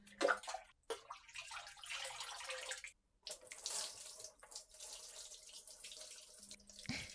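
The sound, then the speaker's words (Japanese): Hot water pours over someone's shoulders in a bath, a steady, faint splashing flow broken by two short pauses, with no voices. “ではまずお肩の方からお流しいたします。”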